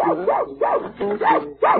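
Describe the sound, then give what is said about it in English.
A little dog shut in a room barks in a rapid run of high, yipping barks. The yelps are short and bright with slightly rising and falling tones, and no voices are heard. “Oh, there's that room with that little dog in it. I think I'll peek through the keyhole at him.”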